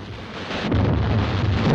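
Continuous bombardment explosions around the ship Amethyst in a wartime audio drama, a heavy, low rumbling roar that swells and stays loud without distinct separate blasts.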